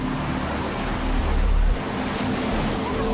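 A large ocean wave, some 15 to 20 feet tall, breaks with a continuous low roar of surf mixed with wind, swelling briefly louder midway before settling back.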